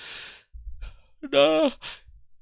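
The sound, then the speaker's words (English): A yawn: breathy inhalation sounds lead into a drawn-out, voiced, wavering groan, which ends in a short exhaled breath. “I'm yawning.”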